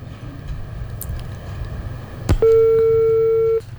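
A single steady telephone tone follows a sharp click after a call to a dangdut request line cuts off. It holds at one even pitch for about a second over a low background hum, with no talk.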